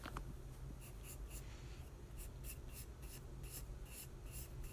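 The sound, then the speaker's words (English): Pencil scratches steadily across paper while sketching hair, a dense dry rasp broken by many quick, rhythmic strokes of even loudness with no voices. “So now I'm gonna start sketching out the hair.”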